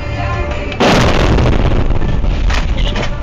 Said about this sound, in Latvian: Sprādziena brīdi video reģistratorā fiksēja arī kāds autovadītājs.